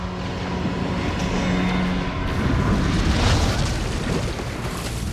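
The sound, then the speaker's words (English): Explosions rumble through a sinking ship as a continuous, dense low roar with crackling texture. It holds at a steady loud level with no clear separate blasts. “The lights on the ship go out. Explosions continue throughout the ship, illuminating the water.”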